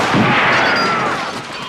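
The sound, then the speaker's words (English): Gunfire from a movie shootout scene in which a room full of people is shot up: a loud, dense barrage of shots merging into a continuous crackling roar that eases slightly toward the end. “You remember the scene at the end where Al Pacino says, you know, say hello to my little friend, and then shoots up, you know, this whole room full of people.”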